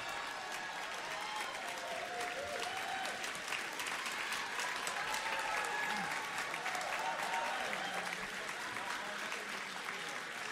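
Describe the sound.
Applause from a crowd for a singer at the Músíktilraunir 2025 band contest: dense, steady clapping that holds at an even level throughout.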